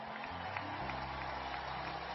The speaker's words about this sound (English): now I want you to give a resounding round of applause to our workforce